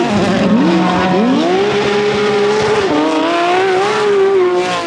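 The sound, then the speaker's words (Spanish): A racing car engine sound effect introducing a motorsport segment: a loud, steady roar whose pitch climbs in steps as if through gears, holds high, dips briefly and climbs again, heard alone with no talk. “cuando suena el motor aquí en Área Lorca Radio Online es que vamos a hablar de deporte del motor”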